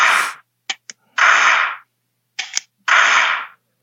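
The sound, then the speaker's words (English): Shots from a laser training gun fired at a target: three loud, hissing bursts, each about half a second long, separated by sharp, brief clicks, with no voices. “So as I shoot at the target,”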